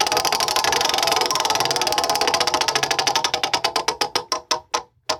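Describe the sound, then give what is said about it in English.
Rapid ratcheting clicks from a spun prize wheel start as a fast blur of ticks, then slow steadily into widely spaced clacks before stopping, with no talk. “Would you like to spin the wheel? I would love to spin the wheel. All right, go ahead and spin that bad boy, man.”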